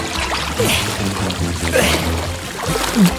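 Water splashes and churns as someone swims hard toward deep water in a reedy lake, a steady, busy sloshing that continues throughout at moderate loudness.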